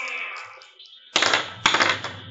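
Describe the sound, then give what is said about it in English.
Percentile dice are rolled, making two short, loud clattering rattles in quick succession. “He rolls percentile dice twice, in fact.”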